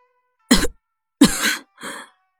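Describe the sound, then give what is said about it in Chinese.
A woman coughs three times while sitting up weakly from her sickbed: a sharp burst, a longer rasping cough, then a softer third, with short silences between. “妇人掩面咳了几声”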